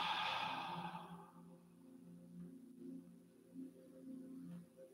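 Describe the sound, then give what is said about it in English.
Breath exhaled after an inhale through the nose during a guided relaxation exercise: a long, breathy exhale fills the first second and fades, leaving soft sustained low tones and quiet breath noise. “Maybe you want to inhale through the nose again. And exhale.”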